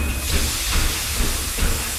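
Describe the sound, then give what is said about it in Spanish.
Loud steady hiss of a steam train pulling away, a broad rushing roar with a few low thumping pulses underneath, no voices. “El Chano sale corriendo y se escapa en el primer tren que sale hacia Sevilla.”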